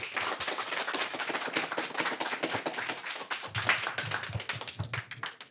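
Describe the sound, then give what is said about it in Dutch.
Sustained audience applause at a talk on youth drug use, a dense, steady patter of many hand claps lasting about five seconds with no voices. “Geef ze voor nu een groot applaus.”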